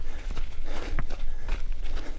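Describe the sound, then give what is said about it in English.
Running footsteps on a desert path in Arizona in December, a quick, steady rhythm of many heavy footfalls, loud and close with no talk over them. “we're going for a run. A run on a desert path near his house.”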